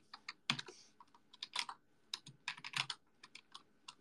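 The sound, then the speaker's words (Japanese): Typing on a computer keyboard while composing a message, with irregular bursts of crisp keystrokes separated by short pauses, many taps in all, with no voices. “ちょっと待ってくださいね。喋りながら文章打つって難しいんだな。”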